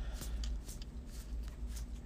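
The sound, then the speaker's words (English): A playing card is drawn from a deck during a tabletop card game, giving a few soft papery rustles and light snaps over a steady low background hum. “Alright, 5 doom, I'm gonna draw my card.”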